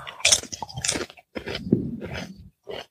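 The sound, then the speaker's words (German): Crisp crunching as someone bites into and chews a rosemary snack, a run of several sharp, loud bursts broken by short pauses, with no talk. “Ja, ich würde sagen, ich probiere mal so ein Ding. Rosmarin ist bestimmt gesund, nehme ich mal an.”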